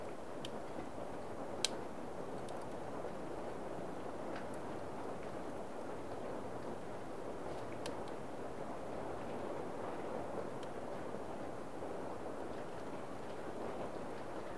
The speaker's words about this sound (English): Let's sit now for a few moments, watching the fire burn and feeling the warmth of the stove.